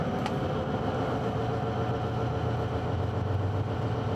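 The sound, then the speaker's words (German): A car engine under acceleration gives a steady, dense low drone with a constant rumble throughout and no clear break or pitch jump, heard alone without voices. “Jetzt wird er auf 6 schalten. Und schneller.”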